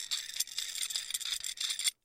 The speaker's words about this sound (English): Set the oxygen tank down here. You know how to hook this thing up, Doc? Yes. Here. Fasten this hose on there. That's it.